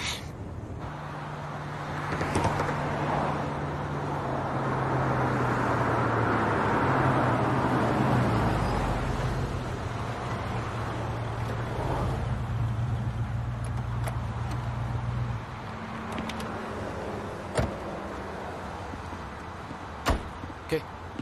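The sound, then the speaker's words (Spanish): A car's engine drones low and steady as the vehicle pulls over, then falls quiet as it comes to a stop. A few sharp clicks follow. “Detente. Detén el auto. ¿Aquí, señor? Sí, hazlo.”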